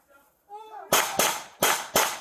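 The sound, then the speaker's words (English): Four suppressed gunshots fired by a police officer in quick succession, each a sharp, loud crack with a brief decaying tail, preceded by a short voice. “It sounds like they were suppressed rounds.”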